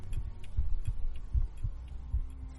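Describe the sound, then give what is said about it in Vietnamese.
A heartbeat thumps in deep, low double beats, about three lub-dub pairs at a slow, steady pace, with faint, light clock ticks between them in otherwise near silence. “chỉ có tiếng kim đồng hồ, tiếng thở khẽ khàng, thậm chí Lý còn có thể nghe được nhịp tim của mình”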